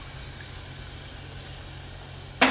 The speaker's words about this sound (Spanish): Y ahora echamos la crema. Uh, ahora sí que se vuelve de verdad en serio.